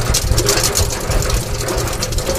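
Steady whirring rumble of a hand-cranked honey extractor with an angle gear spinning honey frames, continuous and even throughout with no clear pitch and no talk.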